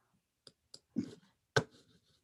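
A handful of sharp keyboard key clicks as someone types a search query. The keystrokes come irregularly, separated by short silent gaps.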